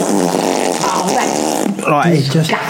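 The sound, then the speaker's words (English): A voice imitates a massive fart with a long, buzzy, wavering vocal raspberry. It mimics a man letting one go while his hair is brushed, and the rasping tone shifts in pitch over a few seconds. “Honestly, just this massive fart.”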